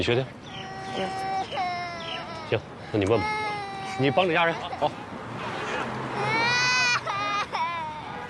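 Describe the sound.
A young child cries in high-pitched, wavering wails and sobs during a police encounter, with adults talking loudly over and between the crying throughout.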